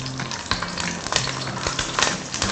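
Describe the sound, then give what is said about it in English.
Onion and green chilies fry in a pan, giving a continuous crackling sizzle with a few sharp clicks and scrapes from stirring spread through it, and no talking. “Add in the onion, the green chilies, and fry that as well.”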